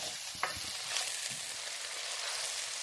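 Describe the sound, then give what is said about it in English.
Onion sizzling as it fries in oil with spices, including ginger and garlic, for a chickpea curry. A steady, faint hiss runs throughout, with a few brief scraping sounds from stirring. “So we are just going to keep stirring the onion until it gets to change the color”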